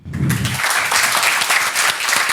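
Applause for a student group after their presentation: dense clapping from a room of listeners that starts within the first half second and stays steady to the end.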